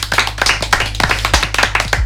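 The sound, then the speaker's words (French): A small group clapping around a table: many sharp, fairly quick hand claps in an uneven rhythm over a steady low hum. “On peut t'applaudir, oui, comme ça on met pas de blanc bizarre.”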